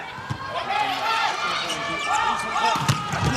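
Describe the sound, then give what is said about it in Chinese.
Ball strikes at a volleyball match as the Chinese team serves in the second set: two sharp thumps stand out beneath continuous lively commentary. “好，来看双方的第二局，中国队来发球。”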